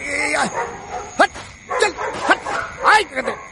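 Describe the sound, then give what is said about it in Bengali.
Dogs barking and yelping in several sharp, high bursts with whining pitch bends between them, loud and close together in an uneven rhythm. “কুকুরগুলো সরে দাঁড়ালো।”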